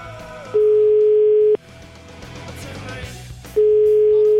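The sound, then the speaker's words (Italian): Telephone ringing tone heard while a number is dialed: a steady mid-pitched tone sounds for about a second, cuts off over a stretch of low background noise, then returns. “Vediamo un po', facciamo un po' sto numero. Ma non risponde,”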